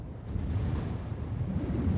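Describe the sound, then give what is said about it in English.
Gusty wind blows straight off the ocean in driving rain, a steady, full roar of rushing noise that fills the whole two seconds with no talk. “the wind coming straight from the ocean hits me for the first time.”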